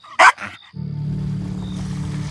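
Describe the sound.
A dog barking furiously in an attack stance: two sharp, loud barks in quick succession, then a low, steady rumbling drone that continues to the end.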